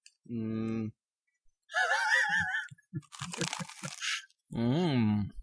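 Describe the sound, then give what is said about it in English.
Someone eating pasta and savoring it, with a few soft, wet smacking and crunching mouth noises between drawn-out hummed and voiced sounds, and other voices around them. “I had my salad, now I'm having my pasta. This takes an hour? I'm savoring it. What's that sound like when you savor it?”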